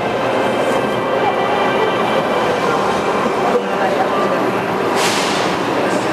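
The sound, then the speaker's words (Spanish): Steady rumble and hiss of a metro train at a Medellín metro station, loud and continuous throughout with no clear breaks. “hoy nos encontramos en la estación La Estrella del Metro de Medellín para el recorrido inaugural del Tren de la Cultura Geografía Imaginaria”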